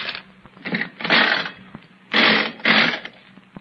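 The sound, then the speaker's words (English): Clattering, whirring mechanical bursts from a nickel slot machine being played, several loud separate runs of ratcheting gear noise with short quiet gaps between them. “Oh, I don't think it's possible to win on these slot machines.”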